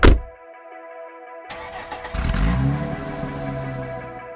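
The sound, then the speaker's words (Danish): Car engine of a BMW M3 Touring station wagon starting up: a sharp burst at the start, then the engine catches and swells into a deep, steady rumble that holds to the end. “Det er jo en BMW M3, som for første gang nogensinde får som touring. Altså som stationcar?”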